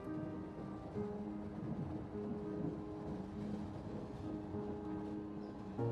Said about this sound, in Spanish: El tren está en movimiento.